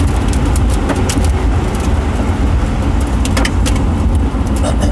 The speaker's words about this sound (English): And in case you guys don't know, I'm driving.